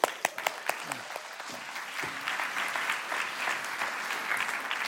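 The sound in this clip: A church audience applauds to welcome a guest speaker to the stage. It opens with a few sharp, separate claps that quickly fill into dense, steady clapping, which carries on at an even level.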